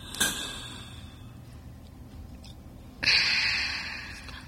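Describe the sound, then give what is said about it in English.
An asthma inhaler is shaken and held in the mouth, with breaths in and out before the puff. A short sharp burst opens, then a quiet pause, then a longer, fairly loud airy hiss that slowly fades. “I shake it well, not too much though, put it in my mouth, and then I breathe in, breathe out, and then I take a puff, like this.”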